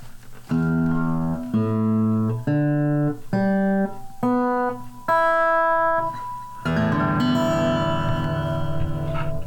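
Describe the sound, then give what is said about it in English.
Acoustic guitar in standard tuning, E A D G B E: six open strings are plucked one at a time from lowest to highest, each ringing briefly, then a full ringing strum sustains to the end. “A standardly tuned acoustic guitar, from lowest note to highest note, is E, A, D, G, B, E, which sounds like this.”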